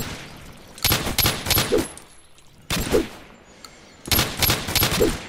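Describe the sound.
9mm pistol gunfire in a video game: three loud bursts of rapid, sharp shots separated by short pauses, with no talking.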